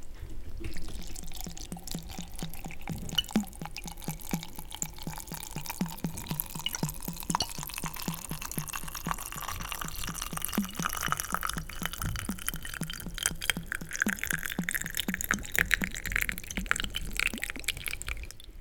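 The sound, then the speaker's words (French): Cider or apple vinegar is poured over rosemary, herbs and rosehips in a continuous trickling, dripping stream, its pitch rising steadily as the vessel fills. “Et donc, une fois qu'on a mis ce romarin, on verse le vinaigre sur tous les ingrédients.”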